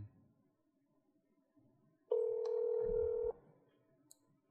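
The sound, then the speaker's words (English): A telephone tone sounds while an official's office extension is dialed: one steady, clear tone lasting just over a second, standing alone over a faint, quiet background. “Let me call your press secretary, Jordan Gulkis”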